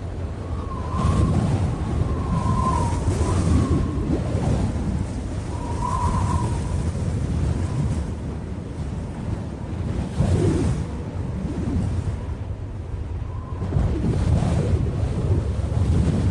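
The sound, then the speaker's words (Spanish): Wind sound effect standing in for a wolf blowing hard at a house in a spoken Spanish children's fable, a loud, continuous rushing roar that swells and surges in gusts for about sixteen seconds. “El lobo sopló y sopló, pero esta vez hizo más esfuerzo.”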